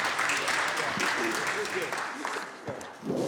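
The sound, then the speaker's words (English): Applause welcoming guests on the California Senate floor: steady, dense clapping that fills the whole stretch with a slight dip near the end, with some voices mixed into the noise. “So I want to welcome both my city manager and my councilman to the Senate floor. Please give them a big welcome to Senator Wynn's guests.”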